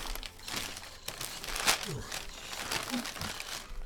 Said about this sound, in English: it's hard to unwrap presents when one of your arms is an alligator tail